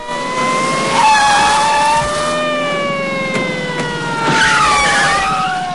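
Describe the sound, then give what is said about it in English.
Police car sirens wail as the cars race up: loud, steady layered tones whose pitch glides slowly downward throughout, over a continuous background rumble. “Police cars race up, screech to a halt, and officers pile out.”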